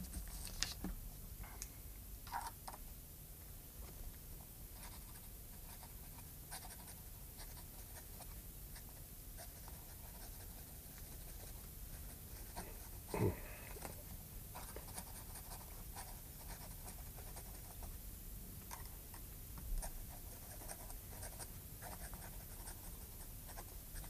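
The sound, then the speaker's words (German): A pen scratches on paper as a last letter to a mother is written by hand in a cell. The writing is faint, continuous and quiet, with small ticks and scrapes throughout. “Und den letzten Brief? Schreiben Sie noch hier. Dazu brauche ich nicht lange.”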